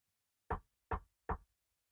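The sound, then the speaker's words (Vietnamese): Knocking on a door: three short, evenly spaced knocks, quiet and alone. “bước đến gõ cửa thì vẫn không thấy ai mở cửa cả”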